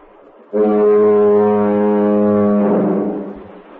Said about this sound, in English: could you tell us what your foghorn sounds like then? Well, it has a blast every 20 seconds. The length of the blast is 2 seconds, and it sounds like this.